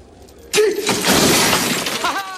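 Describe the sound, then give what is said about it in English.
Metal frame breaking away from a wall, a sudden loud crash that spreads into a sustained, noisy clatter and rattle lasting about two seconds before easing off. “The metal frame comes away from the wall.”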